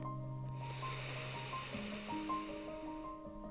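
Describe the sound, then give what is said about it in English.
A slow, deep inhale during a guided meditation: one soft, drawn-out breathy hiss lasting about three seconds, faint beneath sustained tones of gentle ambient music. “And taking a nice, slow, deep breath.”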